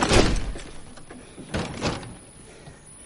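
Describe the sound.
A house door shutting as a young man flees inside and shuts himself in: a loud thud at the start, then a few further heavier knocks and rattles that fade out.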